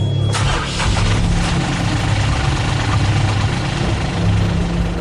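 A car engine idles in a dark parking lot near midnight, a steady low rumble that stays even and fairly loud throughout with no voices.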